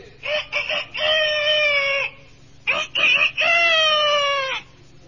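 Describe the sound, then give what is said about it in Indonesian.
A bantam rooster crows twice. Each crow opens with a few short, choppy notes, then breaks into a sustained, strained, high-pitched call before cutting off. “Untuk calon yang terakhir, kupanggil ayam kate.”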